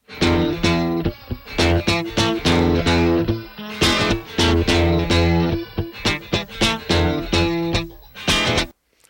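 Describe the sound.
An isolated funky electric guitar riff from a song stem plays alone with loud, tightly chopped rhythmic chords and short gaps between phrases, its tone coloured by effects and slight distortion.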